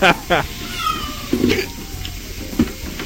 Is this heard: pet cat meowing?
yes